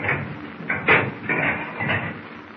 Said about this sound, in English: Open the conning tower hatch. We will go on deck for a breath of fresh air.